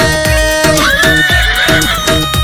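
Horse neighing, a loud whinny with a wavering high pitch that climbs and then holds, set over music with steady, evenly spaced percussive beats.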